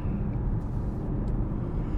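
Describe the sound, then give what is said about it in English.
Tyre and road noise from a long-range Hyundai Kona electric car while driving: a steady, dense low rumble with a soft hiss on top, continuous and even throughout, with no engine note. “There is some road noise as you hear the tyres going across the road, and maybe a little bit of wind going past the mirrors, and that's about it.”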